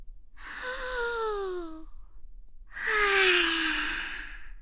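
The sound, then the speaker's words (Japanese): Two long, breathy sighs make up a deep breath in and a slow exhale. Each breath is soft and airy with a faint voiced tone that slides downward, and a brief pause separates them. “だから、深呼吸からね。大きく吸ってから、ゆっくり吐き出す。”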